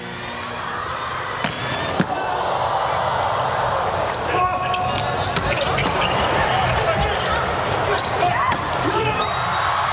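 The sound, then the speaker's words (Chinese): Volleyball serve in a match: a few sharp smacks of hand on ball stand out over a steady roar of crowd noise that fills the whole stretch. “宫浦健人发球”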